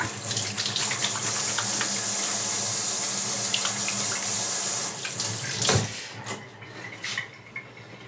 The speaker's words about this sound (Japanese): ハンドソープで、でもちゃんと洗って、